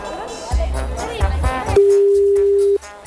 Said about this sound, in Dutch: Wij gaan eens even bellen